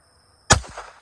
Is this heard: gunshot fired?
yes

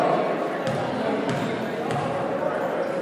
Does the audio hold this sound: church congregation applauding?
no

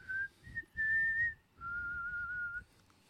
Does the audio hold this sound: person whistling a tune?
yes

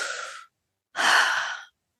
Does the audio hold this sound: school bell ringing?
no

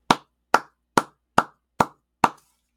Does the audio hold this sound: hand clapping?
yes

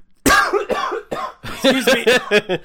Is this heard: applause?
no

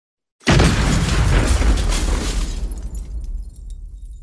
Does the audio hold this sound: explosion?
yes

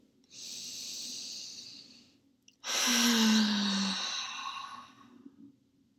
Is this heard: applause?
no

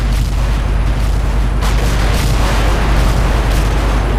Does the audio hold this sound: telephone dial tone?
no

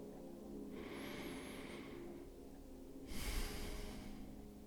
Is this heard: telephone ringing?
no

